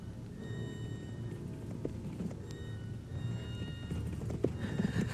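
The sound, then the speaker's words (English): Horses galloping, a dense continuous patter of hoofbeats over a low rumble, fairly faint throughout. “Friends, forget your weariness. Mount now and ride.”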